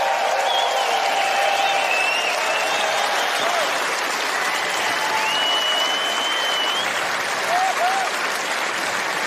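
Concert crowd applauding a band member, a guitar and mandolin player, as he is introduced, with loud, sustained clapping over nine seconds threaded by several shrill whistles and cheers.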